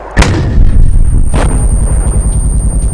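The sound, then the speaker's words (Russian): An RPG-18 anti-tank rocket grenade is fired across a ravine from the opposite slope. Two sharp, loud blasts are followed by a sustained, gurgling hiss and rushing noise. “Облачко дыма вспухло на другом склоне. Точно напротив лестницы. С клокочущим шипением противотанковая реактивная граната РПГ-18 «Муха» пронеслась через расселину.”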